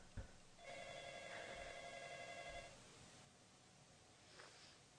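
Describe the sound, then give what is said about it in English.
A mobile phone ringing: one sustained burst of bright, tonal ringing lasting about two seconds, fairly faint, preceded by a brief soft tap and followed by quiet. “Can you hear that? The phone? Is it important?”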